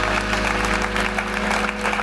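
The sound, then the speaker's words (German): Applause from a studio audience at a live football talk show held in a Munich airport hotel, steady and moderately loud, with a low sustained tone underneath. “Und der Applaus ist gerade abgeebbt, dann kann er wieder aufebben.”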